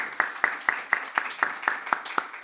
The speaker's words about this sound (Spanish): Vamos a dar palmas al Señor, hermanos.